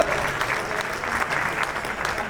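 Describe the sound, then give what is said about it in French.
Applause from a live show audience, with dense, even clapping held at a moderate, steady level for the whole stretch. “Ouais, tu peux applaudir, t'as raison.”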